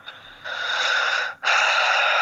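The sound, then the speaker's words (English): Deep, heavy breathing into a telephone: two long, rough, airy breaths follow each other with a brief gap between them. They are loud and close, with no talking. “Why why do you always breathe so deep when I call you?”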